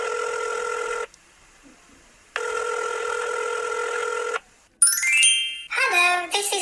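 Telephone ringing heard when calling a paid voicemail line: two long, steady, buzzing ring tones separated by a pause, followed by a short burst of higher, warbling sound.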